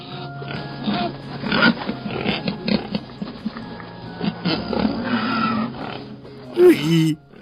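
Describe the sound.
A beloved sow grunts and oinks in a string of short, throaty sounds, ending with a couple of louder, higher squeals.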